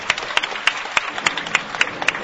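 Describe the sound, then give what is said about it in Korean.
Applause for a hunger-strike delegation at a gathering: a steady, evenly spaced run of about eight sharp claps, with no voices over it. “다시 한 번, 네 분, 단식 대표단 동지들에게 뜨거운 박수 부탁드립니다.”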